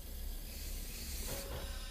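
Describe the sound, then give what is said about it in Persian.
A steady, soft hiss of air comes from the machine an unwell grandfather needs in order to sleep. The breathy rush runs evenly throughout, with no voices over it. “اون منو میترسونه. بابا بزرگ حالش خوب نیست، واسه خوابیدن به اون دستگاه نیاز داره،”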